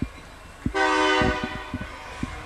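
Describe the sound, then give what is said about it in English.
Train horn blaring during a high school football game: one loud, sustained horn blast starts abruptly and holds before easing off. A few low thumps sound beneath and around it. “The train may have made somebody false start.”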